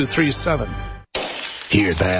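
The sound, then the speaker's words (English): Glass shattering as thieves trash and ransack a house: a sudden sharp crash followed by a bright, ringing spray of breaking fragments. It comes right after a man speaks and continues beneath his voice. “That's the sound of a house being trashed while a gang of thieves ransack the place.”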